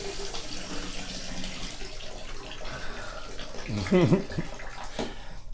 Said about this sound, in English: I just want to wet your hair.